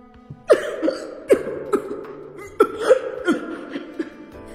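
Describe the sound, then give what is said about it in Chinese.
Violent, harsh coughing is voiced for a character in a narrated story. The coughs come in a long series of rasping bursts, some single and some doubled, with the same loudness throughout and no speech between them. “白鹰剧烈地咳嗽着，伸手去捂自己的嘴”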